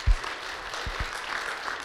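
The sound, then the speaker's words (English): A church audience gives a quick round of applause for the volunteers during a service. The clapping is a steady, even rush at a moderate level, with a few low thumps near the start. “Can we just give them a quick round of applause?”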